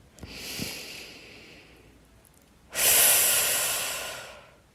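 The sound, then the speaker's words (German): Deep breathing, in through the nose and out through the mouth: a soft, airy inhale followed by a louder, longer, rushing exhale. “Und du kannst gerne tief durch die Nase ein und durch den Mund ausatmen.”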